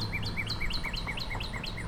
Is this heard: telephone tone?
no